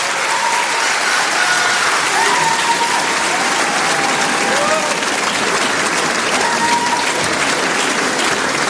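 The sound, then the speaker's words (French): Loud, steady applause with scattered cheers from a concert audience at the Trianon, a dense wash of clapping that holds unbroken for the whole stretch. “Pour mon bassiste et ami et amour, François Crépus, s'il vous plaît. Beaucoup, beaucoup, beaucoup de bruit.”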